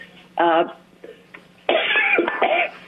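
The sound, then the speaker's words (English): A person coughs in two loud, harsh bursts, the second longer and throatier, against an otherwise quiet background with a faint low hum. “I don't have a cold. I'm just coughing.”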